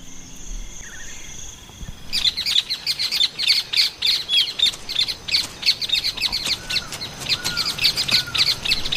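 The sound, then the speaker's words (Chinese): Hungry, newly hatched nestlings chirp from a soft-lined nest, starting after a quiet couple of seconds. Many high, rapid, overlapping cheeps continue steadily to the end. “刚出壳的小宝贝们已经饥肠辘辘，不断叽叽喳喳地表明这一点。”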